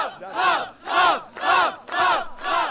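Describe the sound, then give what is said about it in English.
A crowd at San Francisco City Hall, gathered around the state's first legal gay marriages, chants in unison, with five loud rhythmic bursts of massed voices separated by short gaps. “there were lots of cheers. And a few jeers.”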